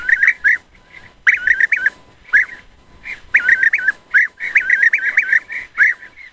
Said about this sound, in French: voici le chant du guépier d'Europe